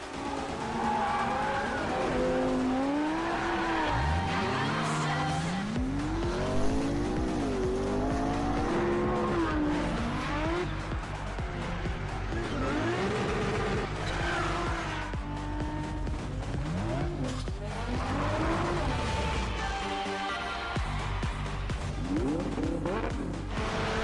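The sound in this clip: A car drives in a racing video game shown at a 2014 game press conference. The engine roars continuously with rising and falling revs, and tires squeal and skid repeatedly throughout without any talking.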